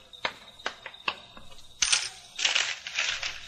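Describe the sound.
A nickel coin handed over gives a few sharp, small metallic clicks, followed by a louder crunchy rustling burst, fairly faint overall with no talk.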